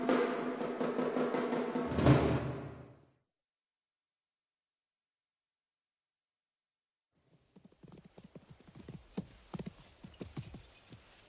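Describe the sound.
Hooves of a white horse being ridden: a dense, loud burst opens, then a long silence, then a run of quieter, irregular clip-clopping hoofbeats continues to the end.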